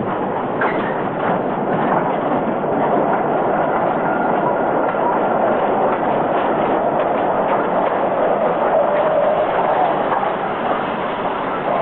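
A locomotive pulling wagons rumbles along with a continuous clattering rattle of wheels on track. The noise holds loud and steady from start to end, with no voices over it.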